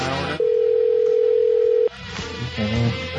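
An incoming Skype call tone: one steady, sustained electronic note lasting about a second and a half, with quieter background sounds on either side.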